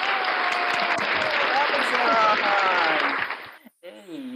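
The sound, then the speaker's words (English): Clapping from a group, loud, dense and steady for about three and a half seconds, then cutting off sharply before a voice speaks briefly. “That is another clap, bro. Another clap, bro.”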